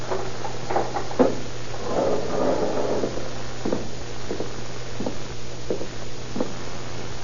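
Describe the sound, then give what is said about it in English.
Metal clanks and knocks as a jail cell is opened with keys: a few sharp, separate clunks spread across several seconds over a steady low hum. “Now to get this tank open.”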